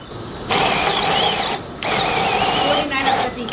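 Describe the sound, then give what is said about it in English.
Powered hemispherical reamers grind a misshapen hip socket back into a round shape during hip replacement surgery, giving a loud, steady whirring whine in a few long bursts separated by short pauses. “So we're taking our misshapen socket, and with these hemisphere-shaped reamers, turning it back into a round shape.”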